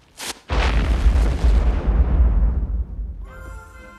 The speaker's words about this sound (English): That was really a bomb?